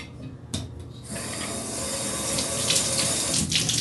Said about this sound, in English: just a scotchy pad to scrub the inside of my tub, and I'm gonna use that. So you want to get it wet.